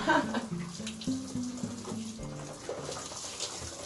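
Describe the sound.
Running water pours and splashes steadily during rinsing, a continuous bright hiss that holds fairly even across a few seconds.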